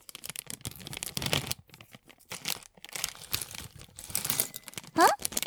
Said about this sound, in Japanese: ん？何してるのって？ピスタチオ。どうするのって？食べるの。